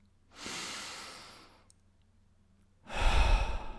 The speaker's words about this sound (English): Take a deep breath.